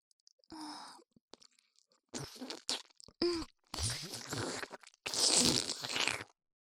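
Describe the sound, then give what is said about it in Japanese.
Someone eats ice cream in several short bursts of wet chewing, smacking and crunching mouth sounds, with soft breathy exhales and brief silent gaps between them. “何よそれ。私はただアイス食べてるだけだし。”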